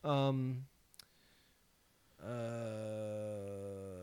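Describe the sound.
A single sharp mouse click, made to enlarge an on-screen clue, lands alone in a quiet gap between sustained harmonic tones that fill the start and the end.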